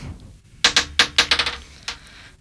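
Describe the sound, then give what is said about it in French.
A die rolled on a board game clatters as a rapid run of sharp, hard clicks that bounce and taper, ending with a lone final tap. “Allez, vas-y, lance un dé, on va voir.”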